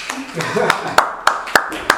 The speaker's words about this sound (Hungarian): nagyon ügyesek, hogy tud mindenki tapsolja meg saját magát